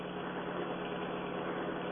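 Steady engine drone of a car driving down a highway, a low, even rumble that holds at constant loudness throughout, with no other sounds.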